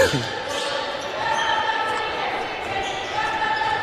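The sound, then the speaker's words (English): A basketball is dribbled on a court during a game, its bounces running under a steady roar of crowd noise throughout. “will dribble it around, get it in the corner.”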